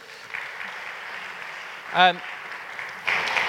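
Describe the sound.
Applause from an audience welcoming a guest who is training to be a vicar: a soft, steady patter of clapping throughout, with a brief vocal sound in the middle and slightly louder clapping near the end.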